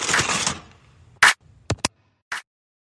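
Aluminum foil is pulled from a roll and handled: a longer noisy rustle comes first, then four short, crisp crinkling bursts separated by silence.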